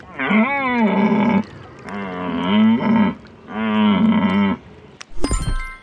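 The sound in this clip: Red deer stag calling in a floodplain forest from a distance: three long, low, moaning bellows with rich harmonics, each over a second, separated by short pauses, then a brief sharp noise at the end.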